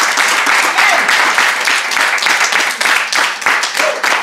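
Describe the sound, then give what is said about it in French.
An audience applauding in church, dense, steady clapping from many hands that stays loud and even throughout. “Est-ce qu'on peut acclamer Dieu? Amen. Je peux acclamer le Seigneur.”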